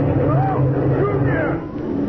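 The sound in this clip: Motorboat engine sound effect in a comedy scene: a steady, low, rumbling drone runs throughout under people talking.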